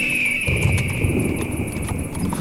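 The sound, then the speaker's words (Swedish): Horses' hooves clip-clop steadily as riders travel on horseback in a drama, a continuous, fairly loud rhythm of hoofbeats over a constant background hum with no voices. “Orvar red för fjalar och jag satt bakom Jonathan på Grim.”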